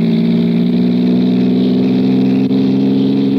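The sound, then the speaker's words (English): A car engine runs on a lonely road through the Alleghenies with a steady, even low drone that holds a constant pitch and loudness throughout. “He hallooed at me this time. Hello! Hello! Stepped on the gas like a shot.”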